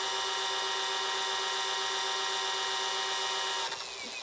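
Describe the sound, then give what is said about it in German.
An electric bike-style drive unit motor runs on its own after the crank is spun fast in high gear, giving a steady, continuous high whirring whine that holds even and alone, then wavers and drops slightly near the end. “Drehe bei hohem Gang so schnell an der Kurbel, dass die Antriebseinheit von alleine startet. Ziehe am Ende den Akku wieder aus der Halterung. Er startet. Dann hört er nach 10 Sekunden hört er wieder auf.”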